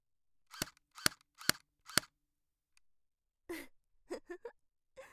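Air gun shots fired at a person: four sharp, evenly spaced cracks in a steady rhythm, followed by a faint click and a few brief breathy vocal sounds.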